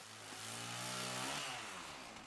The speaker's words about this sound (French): Mon mec m'offre une tronçonneuse. On coupe du bois.